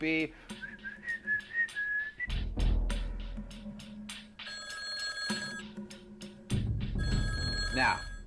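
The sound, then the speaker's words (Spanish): A telephone at the Pentagon rings unanswered in a couple of bright, trilling bursts. Whistling tones and a low rumble come before and between the rings. “Se llamó por teléfono al Pentágono. Pero los militares permanecieron sentados diciendo, ¡Hey! ¿Nadie responde a ese teléfono?”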